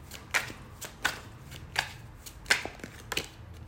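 A deck of cards is handled during a card reading, giving a handful of crisp, papery snaps spaced at a fairly even pace against a quiet background, with no talking.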